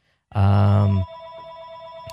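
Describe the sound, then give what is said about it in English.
A telephone rings once, a loud harmonic trill lasting under a second, then a fainter steady tone lingers afterward. “and here goes the phone, so we'll see if someone answers that.”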